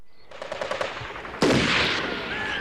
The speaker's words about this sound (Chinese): 韩小林倾听着射击声越来越近